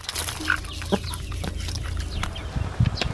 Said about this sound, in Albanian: Muhammed Ramadani ka përfunduar punët në kopshtin e tij dhe nisi ushqej pulat